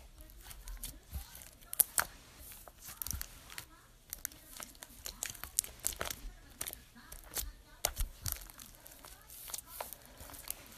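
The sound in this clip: Slime being folded over with more contact solution, giving many faint, irregular crackling and squelching pops in quick bursts.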